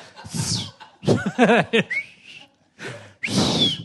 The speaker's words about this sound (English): the whole book's about whistling as well, so it's just, it's how to whistle. How to whistle, that's what you're listening to. So it's a lot of whistling